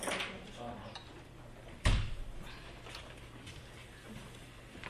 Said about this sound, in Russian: Прикрой дверь.